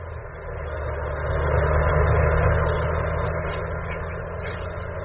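Steady low drone of a car engine while driving, swelling slightly in the middle and then easing, with no voices heard.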